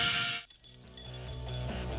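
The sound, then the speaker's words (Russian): Keys to a new apartment in Minsk jangle in a brief, bright metallic burst of clinking that quickly gives way to other sound. “Это звук ключей от вашей новенькой квартиры в Минске, которую разыгрывает Евроопт.”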